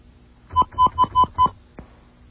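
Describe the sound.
Five touch-tone dialing beeps as a phone number is keyed in to add a last caller to a conference call. The tones are evenly spaced and steady, followed by a brief soft click.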